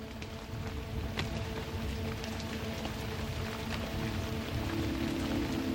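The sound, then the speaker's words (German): Raindrops fall steadily in a dense, even patter that holds at a soft, constant level from start to finish, with scattered sharper drops standing out. “Ein erster Regentropfen fällt und mit ihm beginnt ein Schauspiel von atemberaubender Schönheit.”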